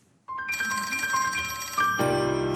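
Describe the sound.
Ringing of an outgoing telephone call starts after a short silence as a bright, sustained bell-like tone with rich overtones. It rings steadily and grows fuller and louder near the end.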